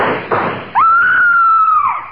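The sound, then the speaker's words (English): A scream in a radio drama: one loud, sustained high-pitched cry held at a steady pitch that dips at the end, after a brief noisy rustle. “Who was it that screamed?”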